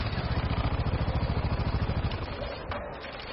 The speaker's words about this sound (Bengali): ওই রকম স্পিডেই বাইক চালিয়ে 5 মিনিটের আগেই লোকেশনে পৌঁছে গেল